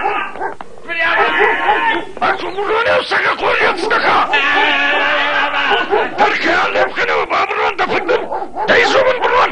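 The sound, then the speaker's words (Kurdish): A dog barking and yipping in a Kurdish-dubbed animated series, the excited, whimpering yelps mixed with a loud, distressed human voice crying out. “وای وای، وەرە فریام کەون سەگ.”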